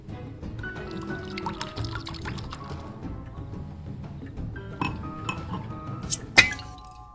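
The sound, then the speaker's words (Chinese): Wine is poured into a glass during a dinner scene, a steady liquid trickle under soft background sound, ending with a sharp glassy clink near the close. “皮特决定主动出击，于是起身给媳妇倒酒。”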